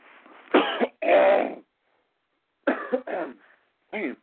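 A person coughs and clears their throat in a few harsh bursts with no talk. Two close bursts come first, then a pause, then several shorter rasping ones.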